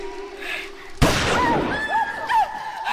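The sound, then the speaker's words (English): A single loud gunshot, a warning shot fired to miss and scare off onlookers, bursts out abruptly and then decays, with voices heard around it. “What are you doing? Scaring them away. Are you mad? I shot to miss.”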